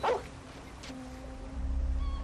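A dog behind a gate gives one short, sharp yip, followed by thin, faint whimpering tones that linger quietly to the end, with low rumbling noise underneath.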